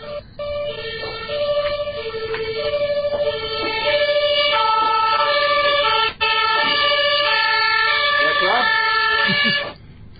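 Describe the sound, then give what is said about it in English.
A non-standard emergency vehicle siren sounds loudly and continuously, stepping between several distinct tones in a repeating pattern, with one brief dropout before it cuts off near the end. “that was a non-standard siren to my American ears. Oh, you know, if I ever wind up running a police department in the United States, which is more likely than you might think, I'm going to have my cars make that sound.”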